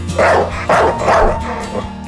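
A dog barks in a few loud, short bursts in quick succession, followed by one fainter yelp near the end.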